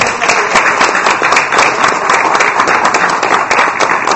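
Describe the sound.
Applause at an evening elementary school event after a student choir performance: a steady, dense crowd of clapping hands, loud and continuous throughout with no pauses.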